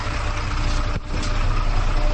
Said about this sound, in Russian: определить, когда едет «Икарус», можно безошибочно. Оглушительный рев двигателя, что слышно особенно ранним утром, спадающие обороты при переключении автоматической коробки передач